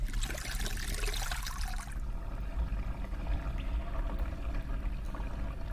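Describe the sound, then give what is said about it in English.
Water drains out of a bathtub after a hair wash: a bright splashing trickle for the first two seconds, then a steady low gurgling rumble that continues to the end, with no voices. “Let's drain out this tub.”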